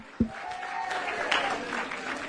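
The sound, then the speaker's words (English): Audience clapping hands in a room during a lively church service: steady, moderate clapping with a sharp low thump near the start and a held tone running beneath. “Come on, would you clap your hands, everybody in this room?”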